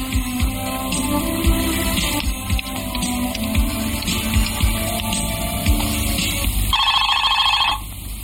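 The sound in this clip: Telephone ringing during a call to an office: a single burst of electronic ringing near the end, preceded by a steady line hum and faint static with no talk.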